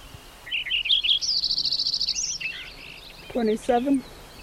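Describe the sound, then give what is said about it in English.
A sparrow sings a bright, high-pitched song of rapid trilled notes, including a steady run of quick, evenly repeated chirps that ends with a few lower, fuller notes. “I think it's sparrow number 2.”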